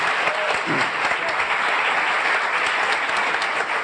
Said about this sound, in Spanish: Aplauso para él.